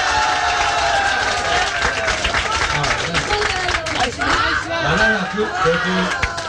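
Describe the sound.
Concert audience applauding to vote for one of three songs, with steady clapping throughout and voices talking over it, becoming more prominent in the second half.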